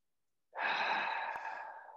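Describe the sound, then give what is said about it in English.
One long, breathy exhale through pursed lips during a breathing exercise, like blowing out a candle. The airy rush starts abruptly, holds steady, then slowly fades, with a tiny click partway through. “we are blowing the air out through pursed lips like we're blowing a candle out.”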